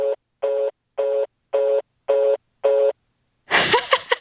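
A telephone hang-up tone sounds as six evenly spaced, steady-pitched beeps, loud and alone, followed by a brief noisy burst.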